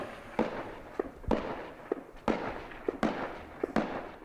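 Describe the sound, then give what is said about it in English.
Gunfire during a battle at an Afghan fortress, with fighters on a wall shooting down into a compound held by enemy fighters. Many sharp, loud cracks come at irregular intervals with no speech. “You could hear some of the bullets ricocheting flying overhead.”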